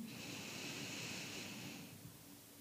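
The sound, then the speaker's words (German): A deep breath in and out: a faint, airy, steady rush of breath lasting about two seconds before it eases off, with no talking. “Lass uns zu Beginn dreimal tief ein und ausatmen. Ein”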